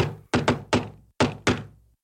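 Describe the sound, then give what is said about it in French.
Knocking on a door by the wolf in Little Red Riding Hood: five solid, hollow thuds in a quick group of three followed by a pair, with no voices. “Il frappa à la porte.”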